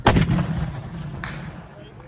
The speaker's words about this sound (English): There's a gravity box, a farm wagon, that we got permission to aim the guns at. Fire!